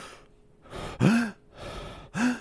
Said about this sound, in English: that sharp inhale is usually a sign of stress, right?